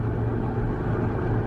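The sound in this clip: Steady road and engine rumble from a car driving at 65 miles an hour, a continuous low drone with no breaks.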